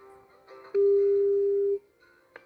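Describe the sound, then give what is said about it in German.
A telephone call to a company ringing out: one loud, steady, single-pitched ring tone lasting about a second, with faint background noise before and after it. “Und jetzt rufen wir in der Firma an, die Sie mit der Warteschleife auf Platz 1 gewählt haben.”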